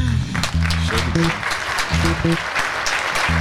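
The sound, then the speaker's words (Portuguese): Dense, steady applause from an audience that lasts the whole clip, with short, low musical notes sounding under the clapping. “Palmas.”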